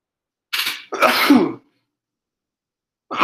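A sneeze bursts out during an online group call: a short breathy intake-like burst, then a louder, longer voiced blast, with no talk over it.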